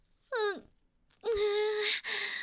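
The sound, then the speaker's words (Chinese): A boy crying in two wailing sobs, the first short with a falling pitch, then after a pause a longer, sustained tearful wail that briefly breaks before trailing on. “怎么哭了？发生什么事情了？怎么突然掉眼泪了？”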